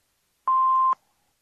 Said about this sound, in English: Please leave your name and phone number after the beep.